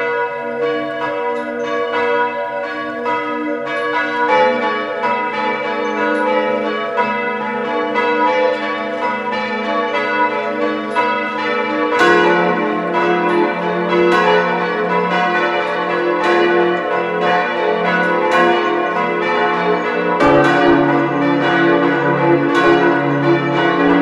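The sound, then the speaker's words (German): Bells of a parish church ringing at noon in Feistritz an der Gail, Carinthia: a loud, continuous peal of many overlapping strikes that ring on throughout, with deeper tones joining partway through and no talking. “Es ist 12 Uhr. Sie hören die Glocken der Pfarrkirche St. Martin zu Feistritz an der Gail in Kärnten.”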